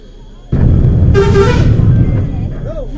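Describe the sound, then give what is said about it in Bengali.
A bus horn honks in one short, bright blast over loud, steady engine and road rumble on a rough, broken road. The traffic noise continues after the honk fades. “বাসের হর্নে ঘোর কাটল তার”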